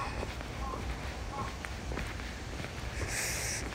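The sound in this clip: Footsteps walk along the paths of a free municipal zoo park in Kawasaki, Japan. Faint, irregular soft steps sound over a low, steady outdoor hiss.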